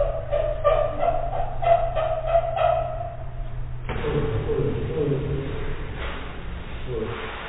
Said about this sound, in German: Das ist ein asiatischer Elefant und asiatische Elefanten haben diese hohen Quietschlaute